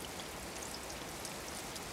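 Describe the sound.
Rain falling steadily, a dense continuous patter and hiss at an even level throughout, with no voices.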